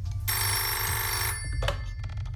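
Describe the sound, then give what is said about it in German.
A telephone rings early in the morning at a breakfast table, one sustained bright electronic trill that then cuts off, heard alone without voices. “Wer ruft denn so früh an?”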